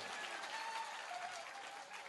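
Hand clapping in a dense, steady stream of claps that runs the whole time at an even, fairly loud level, with no voices heard.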